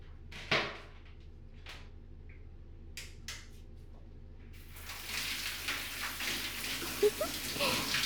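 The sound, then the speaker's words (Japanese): Water rinses body soap off a person in a bath: a steady, hissing rush of pouring and splashing water begins partway through, after a few quiet taps and knocks, and continues to the end. “ボディーソープ流しますね。”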